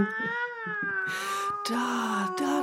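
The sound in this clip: A cat meows in a long, drawn-out wail with a steady, tonal pitch. Short noisy bursts cut in alongside it, and no one talks over it.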